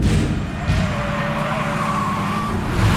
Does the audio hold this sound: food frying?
no